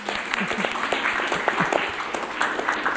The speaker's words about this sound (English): And once again, we ask our fabulous live audience to register their appreciation of our Poem Talkers by putting their hands together again.